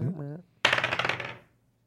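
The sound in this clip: Dice are rolled for an investigation check in a tabletop role-playing game: after a brief voice, a quick clattering rattle of rapid clicks tumbles and fades within a second.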